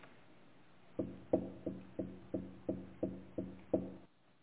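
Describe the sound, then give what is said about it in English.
Knocking at a courtyard gate: nine evenly spaced, hollow knocks in a steady rhythm, fairly faint and heard alone. “it's just a knock. It's at the gate in the courtyard.”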